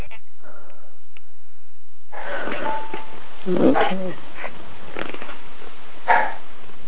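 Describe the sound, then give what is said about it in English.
Dogs barking in the background, a few rough bursts rising out of a steady, noisy wash of sound. “If you hear dogs barking in the background, I apologize.”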